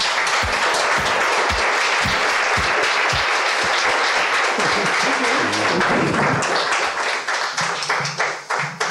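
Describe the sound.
Audience applause welcomes a guest on stage: dense, sustained clapping from a crowd that holds steady for most of the stretch and thins slightly toward the end.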